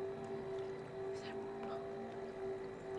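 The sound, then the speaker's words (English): A boat approaching on the water gives a steady, low engine drone with a constant humming tone. It stays fairly even in loudness throughout. “Oh my God, it's a boat! There's a boat coming!”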